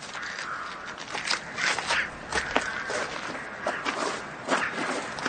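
Footsteps of two people walking, heard as a steady run of soft, irregular steps with light scraping and shuffling, moderately quiet and with no voices.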